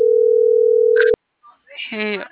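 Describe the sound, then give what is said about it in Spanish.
A telephone dial tone plays while a call is being placed: a steady, single low-pitched hum lasts about a second and is cut off by a click, followed by faint sounds and then a voice. “Ya le estoy marcando.”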